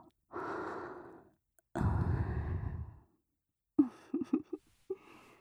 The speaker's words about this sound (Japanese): ようやく止まったようですね。まだ息が上がってますね。深呼吸をして落ち着きましょうか。